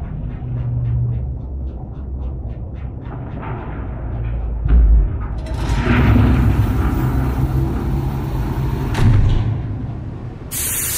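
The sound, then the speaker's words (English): Sci-fi pod 618 opening in an audio drama: a low droning rumble and a heavy thud give way to a long, loud hiss of escaping air that swells, holds and then cuts off, with a short bright burst at the very end. “Open up pod 618 and awaken experiment 842.”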